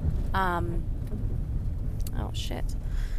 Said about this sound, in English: Missed my turn here. Who else loves podcasting while they're driving?